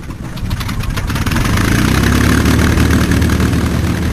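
Old biplane engine starting up: a rough, steady mechanical rumble that swells over the first second or so, then holds at a loud, even drone with no voices.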